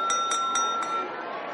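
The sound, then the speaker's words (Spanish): A teaspoon taps a glass goblet four times in quick succession in a school's great dining hall. Each bright clink leaves a clear, high ringing tone that lingers after the last tap. “La profesora Maconegal golpea la copa con una cucharilla.”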